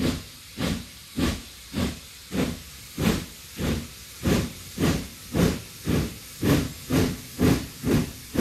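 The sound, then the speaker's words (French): A steam locomotive chuffs steadily. Many sharp, hissing exhaust bursts follow one another at an even, brisk rhythm, and no voices are heard. “Au milieu du 19e siècle, soudain, voit passer une locomotive à vapeur.”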